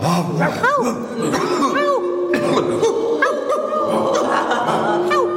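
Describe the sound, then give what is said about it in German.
A group of people imitate dogs barking during an exercise class, with many overlapping yelps and woofs of varied pitch that keep up a busy, continuous chorus. “Und jetzt dürft ihr alle noch mal bellen.”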